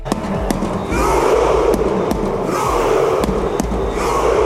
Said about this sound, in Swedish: Så där lät Norge efter att de blev klara för 16-delsfinal i fotbolls-VM efter att ha besegrat Senegal med 3-2 i New Jersey.